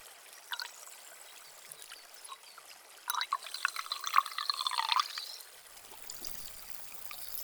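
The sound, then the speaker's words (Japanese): Carbonated water is poured for ear cleaning, a soft trickling pour that swells in the middle before settling into faint, sparse fizzing, quiet throughout. “もう一度炭酸を足して、”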